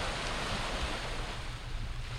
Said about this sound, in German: Der seine Bahnen zieht und bestimmt kommen gleich auch noch ein paar Wellen dazu.